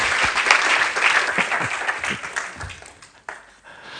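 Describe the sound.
Audience applause welcoming a guest speaker to the stage, dense clapping from many people that gradually thins and fades toward the end.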